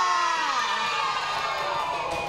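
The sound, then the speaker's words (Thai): Cheering and applause from a group for all the teams as a timed activity ends, a steady, dense wash of shouts and noise that holds at an even level throughout. “ปรบมือให้กลุ่มที่ทุกกลุ่มเลยค่ะ”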